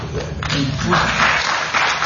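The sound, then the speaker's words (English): Audience applause breaks out in response to a call for congressional term limits. The dense, steady clapping holds at an even, fairly loud level for about two seconds. “You're getting applause for term limits”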